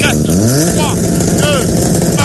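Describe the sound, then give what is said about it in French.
Engine of a Ford Fiesta rally car at a stage start, loud and revving, with repeated bursts that climb in pitch as the throttle is blipped over a steady low drone. “Oui, et c'est une Ford Fiesta. C'est une Ford Fiesta. En tout cas, départ dans 5,”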